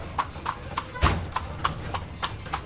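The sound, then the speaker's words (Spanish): Horse hooves clip-clop in a steady, even rhythm during a ride through the Slovak mountains, many crisp, fairly faint hoofbeats with no voices. “A caballo por las montañas eslovacas.”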